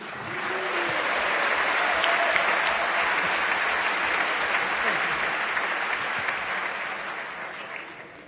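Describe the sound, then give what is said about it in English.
An audience gives a round of applause to Jeopardy! quiz contestants at an event. Many hands clap densely, swelling over the first couple of seconds, then holding and slowly tapering away across roughly eight seconds. “Round of applause for the Jeopardy!”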